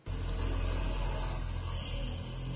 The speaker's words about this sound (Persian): صدای موتور هونداست، صدای ماشین پیتزا پزی تو.